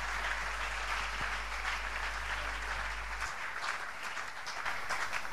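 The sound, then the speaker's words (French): Congregation applauding the Lord at a church prayer gathering; faint, steady clapping from many people that forms a soft, continuous patter with no voices standing out. “Est-ce qu'on peut ensemble acclamer le Seigneur notre Dieu?”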